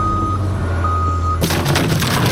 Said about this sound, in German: Also gut, dann fahre ich wieder ein Stückle zurück.